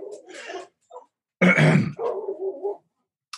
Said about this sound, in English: Sorry about the dogs. They're territorial.